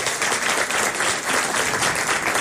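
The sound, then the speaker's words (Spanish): Audience applause greets a male folk singer introduced on stage, with dense, even clapping that stays loud and steady for the whole moment, without any voices. “Por favor, don Raúl Agüero, un aplauso para don Raúl Agüero.”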